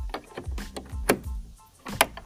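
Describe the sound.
A barn door is shut to lock animals inside on a hot, humid day in southwestern Ohio. It makes a series of wooden clunks and rattles, with sharper knocks near the middle and the end.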